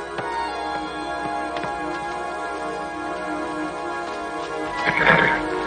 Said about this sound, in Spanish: sube a su coche de caballos y se va.